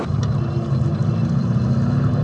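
A taxi cab driving around gives a steady, low engine rumble with road noise, continuous and even in level throughout, with no talking.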